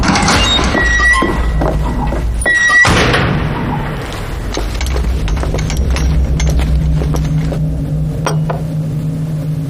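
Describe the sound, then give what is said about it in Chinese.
A door opens with a heavy thump and rattle partway through, set against a continuous low humming background. “啊，开门。”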